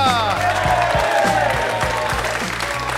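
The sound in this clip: A studio audience applauds to welcome guests onto a comedy panel show, a dense, continuous clatter of many hands clapping that holds at an even, loud level throughout.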